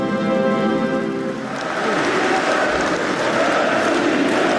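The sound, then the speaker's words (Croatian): Applause from hundreds of Kremlin officials at the annexation signing ceremony rises as a loud, continuous wash of clapping after a brief voice at the start. “Zvaničnu ceremoniju potpisivanja pratio je aplauz stotina čelnika Kremlja koji su prisustvovali događaju, kao i uzvici Rusija, Rusija.”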